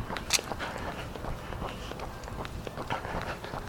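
Footsteps crunch along a walking path in Hammock Park, West Central Florida. Many quiet steps fall in a steady, even rhythm, with a faint background wash behind them.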